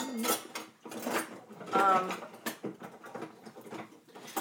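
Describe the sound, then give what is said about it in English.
Clattering and rattling of kitchen utensils as someone rummages for a mixing spoon to stir sauce into meat. The knocking and scraping comes in irregular bursts throughout. “So now let me look for a spoon. I'm just gonna stir the sauce into the meat. Do I have a mixing spoon?”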